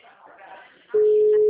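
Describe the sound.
A telephone tone after a dropped call: a faint voice briefly, then a loud, steady, low-pitched electronic tone that starts abruptly and holds unbroken to the end.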